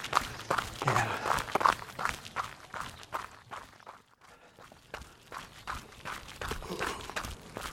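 Footsteps of a person running on a long-distance run, a steady, regular stream of quick, moderately loud footfalls that briefly ease off midway before picking up again.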